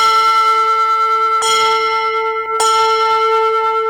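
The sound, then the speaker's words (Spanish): Bells from a bell tower ring loudly, a rich sustained tone that keeps humming throughout, struck afresh twice in the middle with sharp clanging onsets, and no talk. “¡Que suenen las campanas! Vamos a ver si están ahí las campanas.”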